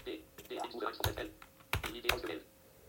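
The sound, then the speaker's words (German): Typing on a computer keyboard, ending with a press of the Enter key: a few sharp, crisp key clicks at irregular intervals over faint background noise. “Gebe ich wieder billy.de/chat ein. So, und dann gebe ich auch wieder Ilja ein, drücke Enter.”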